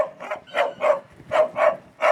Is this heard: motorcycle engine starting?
no